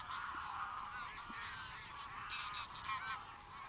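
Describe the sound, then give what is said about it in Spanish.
Flocks of cranes and wild geese call in fog over flooded fields near lagoons around Villafáfila, Zamora, in a dense, continuous chorus of overlapping honks and cries. “Parece que, como nosotros, miles de grullas y gansos silvestres tampoco encuentran las lagunas.”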